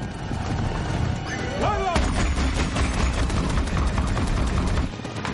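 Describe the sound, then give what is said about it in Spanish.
Dense, rapid gunfire from soldiers' rifles during a science-fiction battle with gunships and helicopters. Shots crackle in a continuous loud barrage over a low rumble, with no gaps for its whole length. “Los Navi caen bajo los disparos de los humanos. Norm dispara su fusil.”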